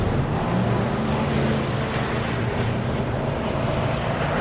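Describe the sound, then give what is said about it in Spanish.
A pickup truck drives through an airport, giving a steady, dense rumble of engine and road noise that holds even in level without clear surges, and no voices. “Suben al vehículo. Los hombres cargan el material. El joven acelera. Conduce por el aeropuerto.”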